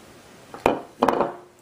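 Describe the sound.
A spoon is scraped and knocked against the edge of a cooking vessel to clear marinade off it. Two short, clattering scrapes sound on their own, the second lasting a little longer.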